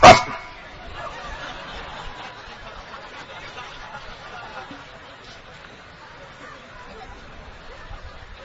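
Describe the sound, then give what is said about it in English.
A voice imitates a dog's bark with one loud, sharp burst at the start, followed by ongoing talking. “that's a dog. It's me. The dog wants to be the controller. This is my house.”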